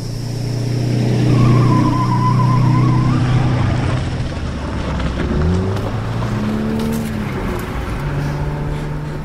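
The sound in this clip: A car races at speed into the desert as a getaway vehicle, its engine a steady, loud roar with shifting tonal whines and a brief high squeal, continuous throughout.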